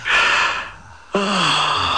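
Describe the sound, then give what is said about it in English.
A person breathes in deeply during a guided relaxation exercise, a soft, airy inhale lasting under a second. A short voiced breath sound follows after a brief quiet gap. “Breathe in and...”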